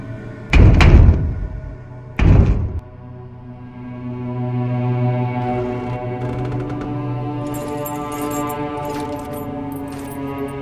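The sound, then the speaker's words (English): A locked gate at a realm's border is tried, giving two heavy rattling clanks a moment apart. A low sustained tonal drone follows and carries on to the end. “Locked, brother. The border with no walls hath a gate which is locked.”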